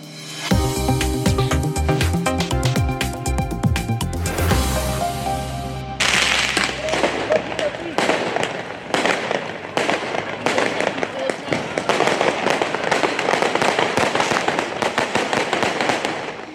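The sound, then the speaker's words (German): Bangs and firecrackers go off during street riots in France: many sharp cracks and pops in quick, irregular bursts, loud and densely packed, continuing without a break to the end. “Was Sie hier hören, sind nicht etwa Ausschnitte von einer wilden Silvesterparty, sondern so hörte es sich zuletzt in Teilen Frankreichs auf der Straße an.”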